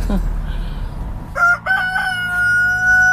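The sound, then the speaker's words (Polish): A pet rooster, raised from a chick, crows once. The loud, drawn-out call with a clear pitch starts partway through after a stretch of low background noise. “O, sam gdzie piał.”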